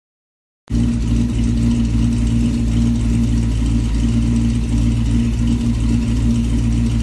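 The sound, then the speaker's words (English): A 1957 Buick Special's engine turning over, cutting in abruptly after silence and settling into a steady, loud, low idling rumble with an even tone throughout. “1957 Buick Special has turned over.”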